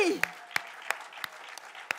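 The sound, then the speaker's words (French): Clapping for mothers at a Mother's Day church service, heard as six sharp, evenly spaced claps in a steady rhythm over a quiet background. “Alors, les personnes à côté des mamans, on les applaudit, oui!”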